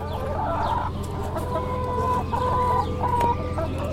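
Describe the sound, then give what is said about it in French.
Hens cluck continuously on the papal farm at Castel Gandolfo, which supplies the Vatican with poultry, meat and milk. The clucking is steady and fairly loud, with repeated short calls layered over one another and no talking. “la ferme de Castel Gandolfo, la ferme qui alimente en poules, on peut les entendre”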